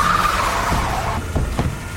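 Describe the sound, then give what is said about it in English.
A car skids, its tires squealing in a high screech over a rough engine roar, all packed into a brief, loud burst. “Did you really have to run over the commander? Stop the car!”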